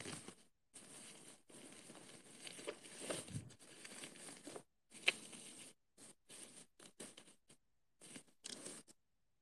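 Crinkling and rustling of packaging as a parcel is wrapped, heard as many short, quiet bursts of crisp handling separated by brief silences.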